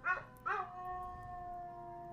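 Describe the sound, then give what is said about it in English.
A Weimaraner howls, opening with two quick rising yelps and then holding one long, steady, mournful note that stays at an even pitch and a moderate level. “But there is a Weimaraner howling in the video.”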